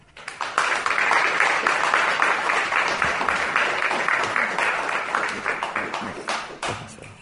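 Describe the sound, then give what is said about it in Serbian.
Audience applause at a poetry reading, a dense, steady wash of clapping that swells quickly after a brief quiet opening and holds loud for several seconds before thinning slightly toward the end. “Morat će aplauzi duže da traju dok pesnik nađe sledeću pesmu.”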